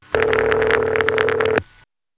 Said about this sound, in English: We phone freaks call it Canada Ring. Now, as far as I can tell, this ring machine is either made or at the very least distributed by Northern Electric,